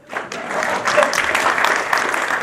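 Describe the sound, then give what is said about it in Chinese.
Warm audience applause congratulating a couple walking in hand in hand, a dense steady wash of clapping with a voice faintly under it. “我们伸出双手，以热烈的掌声祝贺他们。”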